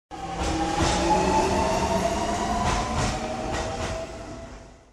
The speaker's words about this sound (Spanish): llegó a su destino final, la estación del tren urbano.